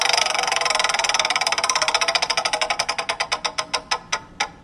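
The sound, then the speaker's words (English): A game-show prize wheel spins to pick a category, its ratcheting clicks rapid at first, then slowing and spreading out until the last few loud ticks come to rest. “we're going to spin the wheel and we're going to get you a category”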